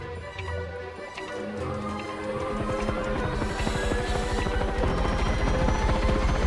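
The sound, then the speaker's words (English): The two huge overhead rotors of a hover vehicle start to revolve, making a rhythmic chopping pulse that speeds up and grows slightly louder over a dense, steady mechanical whir. “The two huge overhead rotors of the hover vehicle start to revolve and they take to the skies, cruising over the mountains.”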